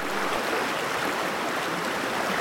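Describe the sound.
A river flowing steadily with an even, unbroken rushing wash of water and no other sounds.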